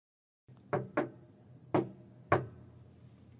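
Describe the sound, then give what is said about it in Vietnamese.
Four sharp taps of long, slender fingers on a table, spaced unevenly: two close together, then two more after short pauses, each a crisp knock over a low, steady background hum. “những ngón tay thon dài rắn chắc cứ từng nhịp vào gõ xuống bàn.”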